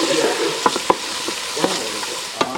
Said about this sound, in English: I started cooking. Mind if we do it by the stove? Yeah, go. This wasn't for any deep audio reason. I just need to stir this on.